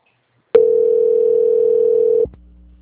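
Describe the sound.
A telephone line tone sounds while a call is being transferred: one steady, mid-pitched hum starts abruptly, holds evenly for under two seconds, then cuts off into a low, faint line hum.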